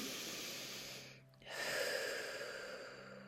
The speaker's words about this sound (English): Take a few deep breaths. I'll take them with you.